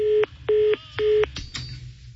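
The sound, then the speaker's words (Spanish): Telephone keypad beeps as a number that did not work is dialed again: three short, evenly spaced tones of equal pitch, followed by faint clicks and line noise. “A ver, lo voy a marcar otra vez.”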